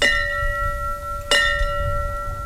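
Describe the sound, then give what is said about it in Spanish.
A bell rings in memory of firefighters killed in attacks. It is struck twice, and a sustained, clear metallic tone with steady overtones holds between and after the strikes over a low rumbling background. “Se ha hecho sonar una campana como recuerdo especial a los bomberos fallecidos en los atentados.”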